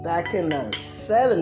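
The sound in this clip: Dishes and cutlery clink and knock as breakfast is served onto a plate, a run of light clatter under a person talking.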